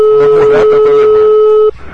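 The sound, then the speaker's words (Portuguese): A telephone ringback tone as a call is placed live on air: a steady, clear electronic tone sounds for under two seconds, then cuts off abruptly. Faint background sound runs beneath it. “É o Escola Show aqui, ligando agora pra Célia.”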